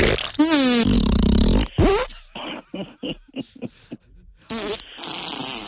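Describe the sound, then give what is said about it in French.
A fart sound effect: a run of buzzy, sputtering blasts of uneven length, some raspy and some rising into squeaky tones, broken by short gaps and ending in one long sustained burst. “je vais te faire un pet de cul, là. Envoyez un pet de cul.”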